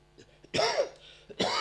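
Throat clearing by one person: two harsh, rasping bursts, the first longer, with a few softer throaty sounds leading in and a short pause between them.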